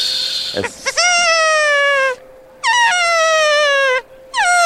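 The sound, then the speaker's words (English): Elk calls blown on a latex diaphragm call: three sustained, high, reedy whistling tones that each slide slightly down in pitch, preceded by short breathy squeaks. The last tone is cut off at the end. “that S puts your tongue in the exact position where you're going to contact the latex and make noise. And then once you figure that out, just keep replicating that sound, just that hiss.”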